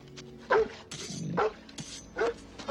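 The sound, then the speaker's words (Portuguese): A dog barks in a dubbed film scene: a few sharp, loud barks spaced about a second apart, with smaller yips and whimpering sounds between them. “Vou apresentar você ao meu cachorro.”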